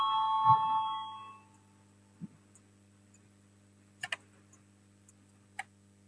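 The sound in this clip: A voting bell rings in the Latvian parliament, a brief tonal chime that fades out within about a second and a half, followed by near silence with a few faint, scattered clicks.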